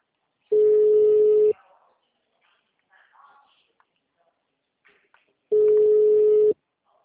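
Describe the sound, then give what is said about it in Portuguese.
A mobile phone ringing tone: two steady, single-pitched beeps, each about a second long and about five seconds apart, with faint scattered sounds in the quiet gap between them. “Eu estava testando meu celular e tocou.”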